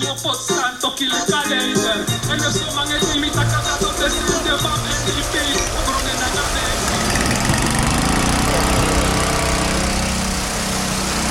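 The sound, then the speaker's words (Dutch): An engine-driven water pump at a tourist resort in Palumeu starts up and pumps river water into a water tower. It makes a loud, steady mechanical drone with a buzzing harmonic hum that runs throughout. “Een waterpomp die gestart wordt bij het toeristenoord op Palumeu.”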